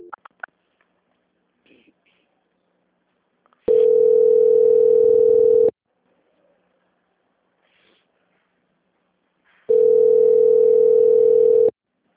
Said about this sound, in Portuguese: só um minuto que eu vou transferir a ligação, tá? Ok. Transferência.